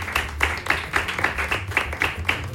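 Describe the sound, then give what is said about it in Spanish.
Applause for the instrumental musicians at a religious celebration comes as scattered, rhythmic clapping from a small group, with regular sharp claps at moderate loudness and a low hum beneath. “Un aplauso para los muchachos también.”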